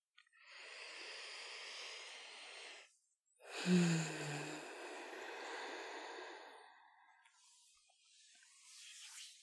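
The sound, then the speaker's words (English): A person takes a deep, slow breath, with a long airy inhale followed by a longer exhale that opens with a low snorting rasp and fades softly. The whole breath is quiet and unhurried. “Concentrate on the sounds I make when I take a deep, slow breath.”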